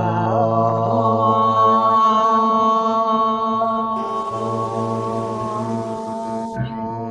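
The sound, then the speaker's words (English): A single long om chanted together by a yoga class, a rich, steady drone of many voices held for about seven seconds before it fades at the end. “One om.”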